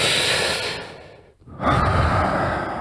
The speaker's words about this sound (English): We're going to do it again. All, breathe in.